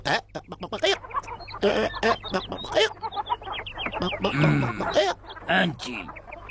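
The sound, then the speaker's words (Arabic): A man's voice imitates chickens clucking, with many short, rapid, choppy clucks and squawks at a fairly loud level in a quick, uneven rhythm. “وبينما كان يراقب الدجاج خطرت له فكرة ذكية. سأقلد الدجاج.”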